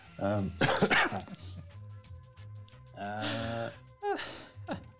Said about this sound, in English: that's my cat coughing